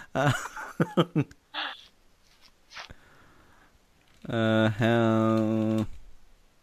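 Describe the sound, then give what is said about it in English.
Keys tap on a computer keyboard in a short burst of quick clicks at the start, followed by scattered quieter sounds. Near the end, people talk and laugh. “I don't even know what I'm typing. But I typed it, so...”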